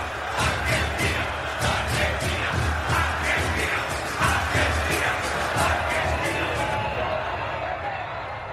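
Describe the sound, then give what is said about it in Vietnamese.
Argentina fans fill the streets of Buenos Aires to celebrate a World Cup win, a dense, loud crowd roar driven by rhythmic chanting pulses that repeat steadily throughout, with many voices shouting together. “Hàng trăm ngàn người hâm mộ Argentina tràn ngập đường phố thủ đô Buenos Aires. diễu hành mừng chiến thắng World Cup.”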